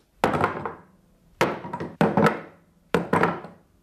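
Guns dropped onto the floor land as a series of heavy, hollow thuds, some arriving in quick pairs, each followed by a short rattling decay.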